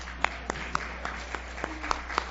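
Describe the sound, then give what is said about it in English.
A church audience at a Baptist service claps faintly. The claps are a few scattered, sharp ones with gaps between them rather than a full ovation. “And we celebrate you. After noting, yeah, you can clap.”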